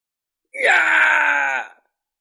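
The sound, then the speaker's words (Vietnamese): A terrified, agonized scream from one voice, a single loud, sustained cry of about a second that starts sharply and fades out at the end, alone against silence. “Một tiếng thét hoảng sợ thảm thiết vang lên.”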